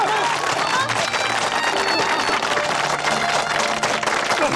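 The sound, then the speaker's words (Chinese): An audience applauds, loud and continuous, with dense clapping holding steady from start to finish. “我提议，我们给广财叔鼓个掌，好不好？”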